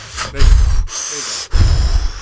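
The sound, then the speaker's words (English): A deep breath drawn in and then let out: two long, airy rushes of breath, fairly loud, with a brief pause between them and no talking. “I'm going to take my breath in, breath out.”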